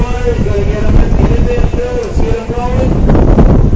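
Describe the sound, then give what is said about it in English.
Strong wind roars and buffets the microphone at a beach on a very windy day with rough water and boats offshore, a loud, dense, continuous rush that surges and eases without pause. “You can hear the wind. Yep, today's the windiest day.”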